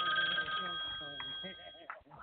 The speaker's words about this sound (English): Uh-oh. Phone call?